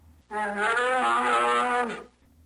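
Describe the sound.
A bear gives one drawn-out, harmonic bellowing call lasting nearly two seconds, loud and steady, heard alone against faint background noise.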